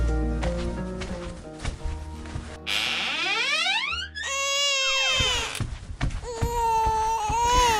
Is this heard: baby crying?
yes